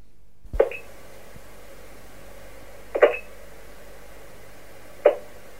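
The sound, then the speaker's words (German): A long-distance telephone line to Fiji gives three short, sharp blips spaced about two seconds apart, each a brief tonal click over a faint hiss. “Telefon-Ferngesprächsleitung zu den Fidschi-Inseln.”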